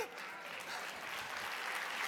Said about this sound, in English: We ought to give a round of applause for every wife who's put up with so much stuff